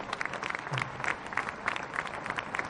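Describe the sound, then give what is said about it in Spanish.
Crowd applause at a political party's founding congress in Caracas, heard as fairly faint, dense, steady clapping that continues evenly throughout without a break. “Vamos a darle un aplauso a Aristóbulo, con todo nuestro cariño.”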